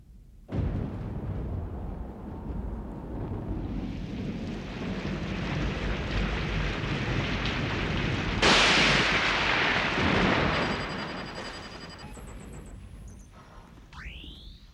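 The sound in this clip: Thunder and heavy rain on a stormy night: a loud, steady roar begins abruptly, swells into a harsher crash partway through, then slowly eases off, with no talking.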